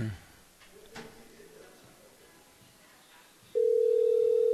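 A telephone call reaches voicemail: faint line hiss with a few soft clicks gives way to a loud, steady single-pitch tone that holds to the end.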